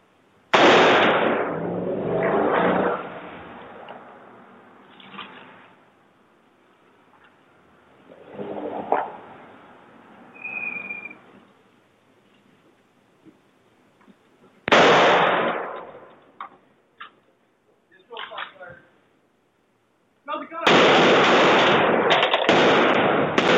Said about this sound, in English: You guys saw when they were driving by and you heard the shot going off.